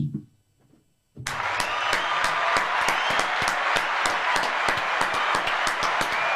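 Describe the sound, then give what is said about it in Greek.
Canned applause blends with live studio clapping, bursting in after a moment of quiet murmuring and continuing as a dense, steady wash of many hands for about five seconds. “Εδώ χειροκροτήσαμε και εμείς, γιατί δεν αρκεί μόνο το χειροκρότημα κονσέρβα.”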